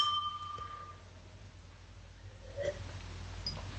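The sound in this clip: Glasses of sparkling wine clink in a toast. A faint, bright glassy ring fades out over about a second above a low steady hum, followed later by a soft tap.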